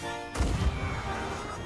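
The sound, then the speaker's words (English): A gunshot fires in a pirate video game, a single heavy, booming blast that cuts in abruptly and then fades into a lingering low rumble. “Whoa, what are you doing? I think he just shot himself over here.”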